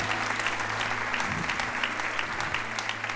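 An audience applauds during a church sermon, with steady, dense clapping at an even level throughout and a low, steady hum underneath.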